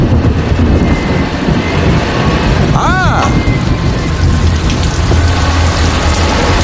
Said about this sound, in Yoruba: Ṣé ni òjò yìí ń lu ìlú lé wa lórí, tí ó ń dún wíní-wíní bí omele ìlú dùndún?